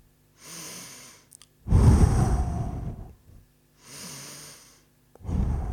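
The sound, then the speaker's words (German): Deep, slow breathing in and out during a guided relaxation exercise, done sitting cross-legged on the floor with eyes closed: a soft airy inhale, then a louder, rushing exhale, then a second soft inhale and the start of another exhale. “Tief ein- und ausatmen.”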